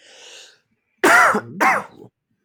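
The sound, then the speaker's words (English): Throat clearing in two loud, rasping bursts close together, following a soft hiss. “Clear my throat with some Kingsville beer.”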